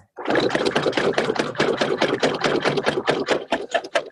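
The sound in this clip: A sailboat's engine motors forward while the anchor is raised, giving a loud, steady chugging made of rapid regular pulses that runs throughout without talk.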